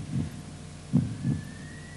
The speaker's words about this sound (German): Genauso wie ihr eben die Technik gehört habt, wie dieses Pumpen des Herzens zu hören ist,